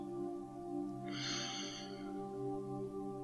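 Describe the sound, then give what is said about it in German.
A deep inhale through the nose during a guided meditation is a single breathy rush under a second long, rising over a steady droning musical bed. “Schließ deine Augen und atme tief durch deine Nase ein.”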